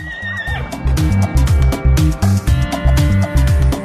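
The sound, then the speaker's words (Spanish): A horse neighs with a high, wavering whinny at the start, followed by loud, dense rhythmic thumping that continues to the end. “Soy un animal elegante, muy veloz y poco fiero. Y cuando quiero cansarme, voy a casa del herrero. El caballo.”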